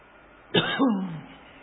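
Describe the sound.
During a sermon, a preacher with throat trouble gives one sharp cough, then a gruff throat clearing whose voiced tail slides downward in pitch.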